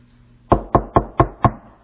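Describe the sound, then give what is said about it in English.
Knocking on a door: five sharp, evenly spaced raps in a steady rhythm after a short quiet lead-in. “He's at the door. That's judgment knocking. That's the Lord Jesus Christ knocking.”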